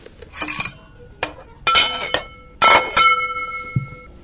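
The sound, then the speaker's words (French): Metal clanks as a lid is placed on a cooking pot. Several sharp clinks and clatters with brief ringing tones come in separate bursts. “Je ferme la marmite.”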